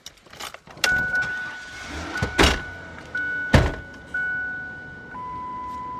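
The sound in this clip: Car sounds in a small village town: a few sharp, heavy clunks like doors shutting, with a steady electronic chime tone running underneath that steps down to a lower pitch near the end.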